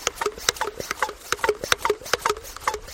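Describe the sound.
Pumping of a pressure spray bottle at a riverbank, before the spray is used to disinfect waders: many quick, steady squeaky strokes in an even rhythm, fairly faint, with no voices.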